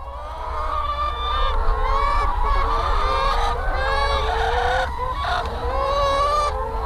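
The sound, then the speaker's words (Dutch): Dense, continuous clucking from a large flock of hens at a poultry farm housing 65,000 chickens on a hot day; many overlapping cackles and squawks form a loud, unbroken chatter with no pauses. “Zijn ze aan het jammeren? Nee, als we dit horen, je hoort de kippen kakelen.”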